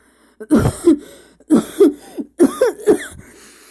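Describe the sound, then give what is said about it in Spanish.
A man coughs harshly while choking on thick, foul-smelling air, in three loud bouts of two or three rough, barking coughs each, separated by short pauses. “Tosió.”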